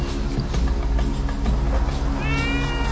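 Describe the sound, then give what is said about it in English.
Cat meowing, a few faint meows above a steady low rumbling background noise. “kitty cat”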